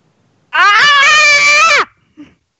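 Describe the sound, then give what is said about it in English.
A person screams at the top of their lungs: one loud, sustained, raspy cry lasting over a second, holding a fairly steady pitch before cutting off, followed by a brief faint sound. “I yell. I don't know. Okay. Scream. Top of my lungs.”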